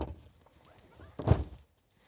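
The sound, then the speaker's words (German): Faint shuffling and creaking as an accordion-style hinged panel over a homemade opening is folded out to reveal a large bed, ending in one dull, low thump. “so eine Öffnung hier zu machen, die man so aufmachen kann. Und dann kann ich das hier so Ziehharmonika-mäßig ausklappen.”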